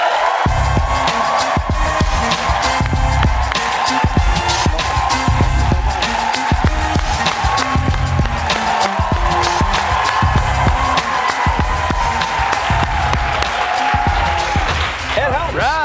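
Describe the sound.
A studio audience at a late-night talk show claps and cheers as a guest is welcomed, the clapping dense and sustained, with many sharp bursts throughout.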